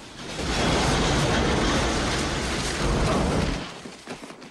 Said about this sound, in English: The two cows watch the plane stop.